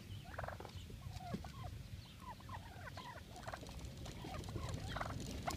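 Wild turkeys following a car gobble in many quick, warbling bursts, faint and scattered over a steady low rumble, the calls growing slightly busier toward the end.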